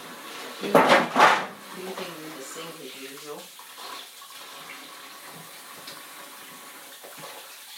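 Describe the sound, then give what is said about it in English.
Water runs from a tap while hands are washed: a strong splashing burst near the start, then a faint, steady trickle. “I'm just going to wash my hands.”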